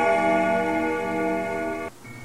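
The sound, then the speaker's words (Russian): A church bell-tower clock strikes the hour with one rich, sustained ringing tone that holds steady and then cuts off abruptly, leaving a fainter, thinner tone. “когда часы на колокольне пробили час”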